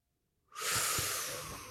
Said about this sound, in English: And there's only one thing left to do. And that is inhale a hot breath.